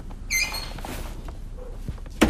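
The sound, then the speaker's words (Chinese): A door being closed gives a high creaking squeak early on, then soft shuffling and a short, sharp bang at the end. “来，把门关上。”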